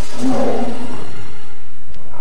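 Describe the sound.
A tiger nearly the size of a calf gives a deep, growling roar that is loud at first, then sinks into a quieter, rough rumbling tail with no voices.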